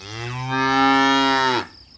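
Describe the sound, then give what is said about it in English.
A black-and-white cow moos once, a long, loud, steady bellow rich in harmonics that swells in and then cuts off abruptly. “it's a cow. It's black and white.”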